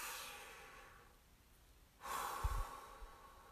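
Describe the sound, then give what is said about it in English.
A single deep breath, soft and breathy, heard alone after a quieter stretch of near-silence. “Just take a deep breath. So there, I took a deep breath.”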